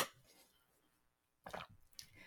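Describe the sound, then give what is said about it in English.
Someone taking a drink of water: after a near-silent stretch, soft wet sipping and swallowing sounds come in two short bursts toward the end, all faint. “Sorry, I'm going to take a drink of water.”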